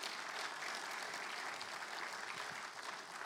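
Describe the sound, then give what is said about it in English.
Audience applause welcoming speakers, a steady and even wash of many hands clapping that continues without a break from start to finish. “So could you put your hands together and make them feel welcome again”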